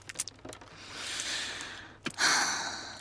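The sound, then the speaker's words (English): A big breathy groan comes as a long exhalation that swells and fades, then a second, louder rush of breath. A few faint clicks open the quiet clip. “Ooh, that was a big groan.”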